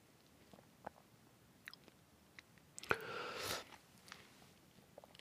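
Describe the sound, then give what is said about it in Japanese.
Someone eats a Valentine chocolate yogurt with faint, quiet clicks and soft chewing sounds, plus one short, louder crunchy burst midway. “なんかヨーグルトと一緒に食べるの本当に不思議な感じですね。いただきます。”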